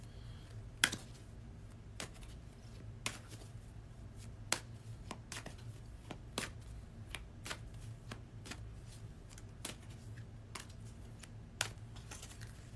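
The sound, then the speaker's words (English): Tarot-style cards being shuffled and pulled, heard as many faint, sharp clicks and snaps at fairly regular intervals over a low, quiet hum. “We'll go ahead and I'll go ahead and pull the three cards.”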